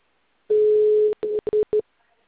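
Telephone dial tone while a call is placed: a steady single-pitched tone for about half a second, then broken into a few short bursts of the same tone before falling silent.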